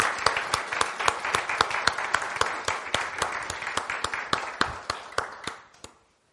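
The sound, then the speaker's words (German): Congregation in a church service clapping for Jesus, sharp claps in an even, steady beat that gradually weakens and stops shortly before the end. “Put your hands together for Jesus. Also, klatscht für Jesus, euren besten Freund.”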